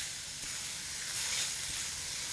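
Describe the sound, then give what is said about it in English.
Mushrooms sizzling in a pan while cooking a simple Alfredo, a soft, continuous hiss and crackle of frying that stays fairly even with a slight swell midway. “Look at the mushrooms. They're starting to take on some color.”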